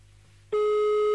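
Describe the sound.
A telephone busy tone after a cut-off call: a loud, steady electronic tone switches on abruptly and holds without a break to the end.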